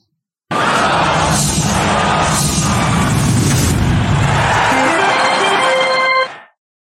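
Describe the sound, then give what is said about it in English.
Loud theme music for a Call Your Shot segment: about six seconds of dense, booming sound that ends with a quick rising run of bright, ringing tones before cutting off. “I'm going to go ahead and play our theme.”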